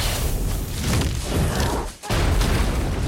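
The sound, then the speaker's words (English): Roaring blast of a fireball hurtling through a burning forest: a dense, loud, continuous rumble of flames that briefly drops away near the end, then surges back at full force. “Katniss runs, surrounded by flame, then her eyes widen in horror, and she drops to the ground as a fireball hurtles straight at her.”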